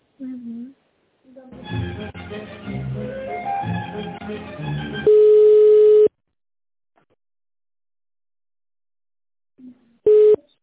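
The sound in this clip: Telephone tones as a call is transferred: a steady beep lasting about a second, then near silence, then a second, shorter beep of the same pitch.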